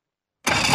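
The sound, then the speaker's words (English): Boat engine starting up, cutting in abruptly after a moment of silence and settling straight into a loud, steady mechanical roar. “boaters and fishermen have counted on Nationwide to fire up their engines”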